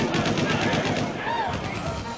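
Rapid gunfire near puppy cages: a dense, continuous stream of sharp shots in quick succession, loud and steady throughout.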